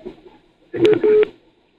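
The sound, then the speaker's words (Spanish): An incoming-call telephone tone sounds as two short electronic beeps in quick succession, fairly loud against a faint background. “Ahí está entrando otra llamada”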